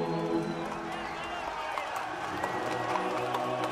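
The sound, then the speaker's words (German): Crowd cheering in Moscow: a dense, steady roar of many voices shouting together, holding an even loudness throughout without clear breaks. “Als diese Jubelrufe durch Moskau schallen, fühlt sich das Volk befreit.”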